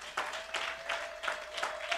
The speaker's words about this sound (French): Est-ce qu'on peut se lever un moment dans la présence de Dieu ce matin? Est-ce qu'on peut acclamer le Seigneur un moment?